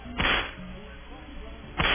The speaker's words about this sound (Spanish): Latigazos para Royen, hipócrita, eso.